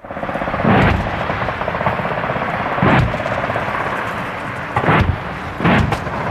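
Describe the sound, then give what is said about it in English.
Heavy blasts from a live-fire military training exercise near Townsville, Queensland, Australia, involving Australian, American and Japanese forces. Four loud booming bursts punch unevenly over a constant loud, deep rumble. “That's the sound of a live fire exercise taking place near Townsville in Queensland, Australia.”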